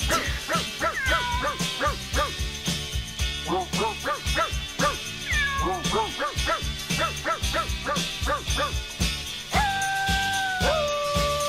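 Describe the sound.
Dogs barking, yipping and whimpering, arranged into a rhythmic band-style song: many short pitched yelps fall on a steady beat over a dense backing, with longer sustained whining tones near the end.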